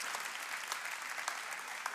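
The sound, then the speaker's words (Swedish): Audience applause during a church service, soft, continuous clapping with a few sharper claps standing out, fairly faint throughout. “Ja, en applåd till. Ja, exakt. Ja, det är bra. Där, jajamän, tack. Applåd, mannen.”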